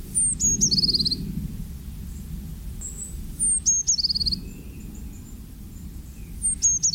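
A great tit sings three short bursts of high, bright whistled notes and trills, spaced a few seconds apart over a steady low rumbling background.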